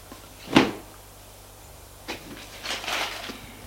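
A suitcase is shut after clothes are packed into it: a sharp knock, then a softer knock, then a short burst of rustling and scraping, with no voices.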